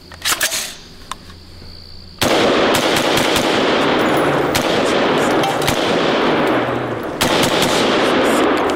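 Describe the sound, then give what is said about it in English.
Gunfire inside a theater: a few scattered sharp cracks, then a dense, continuous, very loud barrage of rapid shots. The barrage briefly dips once before resuming at full force. “This was him shooting this thing. This is what it sounded like in the theater.”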